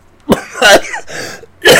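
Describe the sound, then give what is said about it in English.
A man's voice imitating a cough, with a few harsh, forced coughing bursts and throaty rasps separated by short pauses, loud and on its own without speech. “I have a cough, doctor, I have a cough.”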